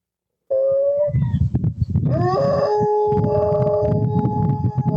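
A dog on a porch howls like a hound, with long, wavering tonal cries that settle into a steady, sustained wail held to the end, over a low, rumbling background.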